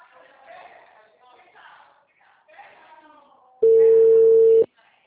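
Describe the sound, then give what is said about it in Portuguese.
A telephone ringback tone while calling a café: after a stretch of people talking, a single steady, mid-pitched tone sounds loudly for about a second, then stops. “Eu tô ligando no café.”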